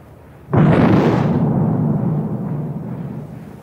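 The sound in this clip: A gun turret fires a salvo during gunnery practice: a sudden, loud booming blast lands just after the start, then a heavy rolling rumble slowly decays over the next few seconds.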